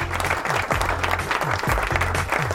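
Applause used as a sound effect, a busy burst of many hands clapping at moderate loudness, with a low rhythmic pulsing thud running beneath it.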